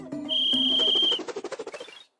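A referee's whistle sounds in a children's cartoon game: one steady, shrill blast, then a run of quick rhythmic pulses that fade out.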